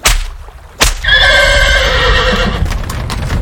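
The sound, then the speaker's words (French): A horse drawing the king's carriage lets out a loud, long, wavering whinny after a couple of sharp clacks. The neigh holds strongly for well over a second, then fades into rough breathy noise. “Le roi exigea que le marquis monte dans son carrosse et participe à la promenade.”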